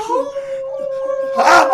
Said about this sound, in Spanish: Ay, no, es seguro un perrito de la pradera. Y su estertor hambriento apuñalando esta oscuridad helada